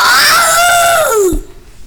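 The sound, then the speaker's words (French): A loud scream of pain as a fake beard is yanked off, a sustained high wailing cry that glides steadily down in pitch before breaking off abruptly. “Il tire un grand coup sur la barbe de Ratus. Il croit qu'elle lui restera dans les mains, mais Ratus pousse un hurlement.”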